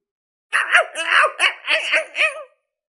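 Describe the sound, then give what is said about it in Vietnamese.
A big black dog howls wildly as if in a fit, a rapid series of loud, strained yelping cries with bending pitch, heard alone. “Ngay sau đó đại hắc cẩu như bị động kinh, gào điên cuồng không thôi, dùng sức phun ra phía ngoài.”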